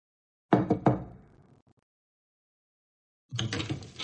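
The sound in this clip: A few sharp knocks on a door come in quick succession and fade. After a few seconds of silence, a longer rough burst of sound follows.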